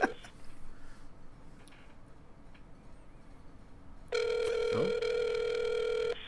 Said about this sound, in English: We're calling him live on the air right now. We're calling him live on the air. Hopefully this comes through.